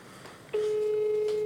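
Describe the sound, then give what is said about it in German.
A telephone ring tone sounds during an outgoing call. Faint background noise comes first, then a single steady, clear tone starts about a third of the way in and holds unbroken to the end. “ich probiere den jetzt nochmal anzurufen. Versuch den erstmal nochmal anzurufen”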